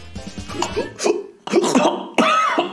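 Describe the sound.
Someone who has just swallowed a fly coughs a few times, harsh and throaty, in uneven bursts with some voiced straining between them.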